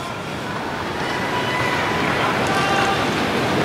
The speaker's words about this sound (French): D'où le bruit que vous entendez au niveau du public.